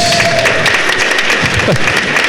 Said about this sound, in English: So, congratulations, sir. Give him a round of applause.